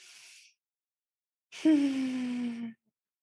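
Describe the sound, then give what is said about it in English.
Slow, deep breathing during a guided breathing exercise: a short airy breath, a pause, then a longer and louder breath carrying a steady, sighing voiced tone that ends abruptly. “Inhale and exhale. Breathe normally. So let's do three breaths. One breath, second breath.”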